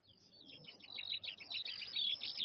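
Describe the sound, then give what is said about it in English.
Birds singing in a cherry tree: rapid, high, bright chirps and short trills repeat without pause over a faint background hiss, growing a little louder as the song goes on. “the birds start to sing. They sing so beautifully that Bod, Frank, Barleymow, P.C. Copper, and Aunt Flo listen spellbound.”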